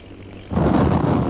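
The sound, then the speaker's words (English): A bomb explodes in a radio drama: a quiet background breaks halfway through into a sudden loud boom that carries on as a heavy, sustained rumble. “There goes Holbrook's 1st bomb.”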